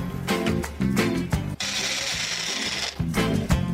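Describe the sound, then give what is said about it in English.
An electric grinder whirs through melon seeds and whole cardamom pods, starting with a few short pulses, then running in one steady stretch, then pulsing in brief bursts again. “some melon seeds, some whole elaichi. You can add some elaichi powder, which I'll add later. First we'll grind this, then we'll add the sugar.”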